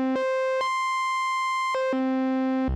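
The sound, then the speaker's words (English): A voltage-controlled oscillator gives a buzzy, harmonic-rich tone that steps up in pitch twice, holds a high note, then steps back down to its starting pitch. “the source, which is this one here, which is a VCO, which is a voltage controlled oscillator. That's the oscillation, the raw source that we play with. And if I change the pitch of this,”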